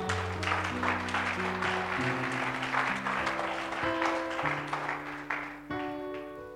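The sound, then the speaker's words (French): Steady applause from a church audience acclaiming God, a dense, unbroken patter of clapping over sustained musical chords that shift from one to the next. “Acclame Dieu pour cette parole.”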